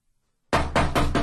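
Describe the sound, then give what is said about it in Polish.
Knocking on a door comes as a quick series of several loud, sharp raps in close succession after a moment of silence. “O! Już ktoś puka.”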